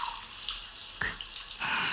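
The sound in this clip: Shower water running in a steady, continuous hiss of spray that swells a little louder toward the end.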